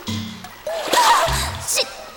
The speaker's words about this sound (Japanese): さっさと湯船に浸かって出ようっと。